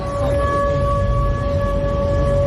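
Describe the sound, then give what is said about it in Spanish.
Air raid sirens wail at night in Krasnodar during a drone attack: a loud, unbroken, steady-pitched tone that holds over a low background rumble for the whole stretch. “Y este es el sonido de las sirenas antiaéreas esta noche en Krasnodar”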